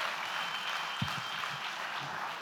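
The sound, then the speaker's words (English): Applause from a church audience forms a dense, even wash of clapping that fills the whole clip at a moderate level, with no distinct individual claps standing out. “Why don't you give him a big round of applause?”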